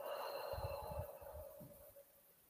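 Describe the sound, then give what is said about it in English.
Deep breathing in and out during a guided relaxation exercise: soft, airy breath noise with a few low, gusty pulses that fade gradually toward the end, with no talking. “Let's take 3 deep breaths. Breathe in and breathe out. Breathe in and breathe out.”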